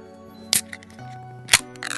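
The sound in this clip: Opening of an Okinawa limited-edition design drink can: two sharp clicks about a second apart, then a short fizzing hiss, all over a steady tonal background.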